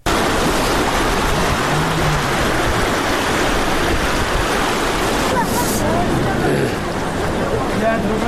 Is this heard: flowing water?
yes